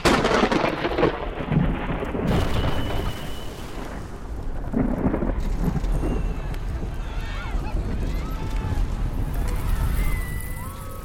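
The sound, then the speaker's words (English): Thunderous rumble of a giant cavern crumbling: a dense, continuous roar of falling rock, with a deep low roll under crackling debris noise that stays loud throughout. “As the giant cavern crumbles”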